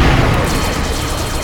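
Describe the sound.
A warship's guns fire a full salvo: a loud, dense roar and rumble that starts at full strength and holds steady throughout, with no separate shots standing out.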